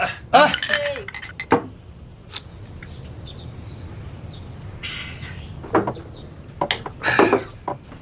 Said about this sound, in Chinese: 我们先干了这第一杯，来 来，干杯！